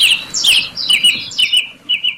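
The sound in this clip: A small bird chirping in a quick run of bright, high tweets. Several short bursts repeat at a fairly even pace, clear and alone with no voices.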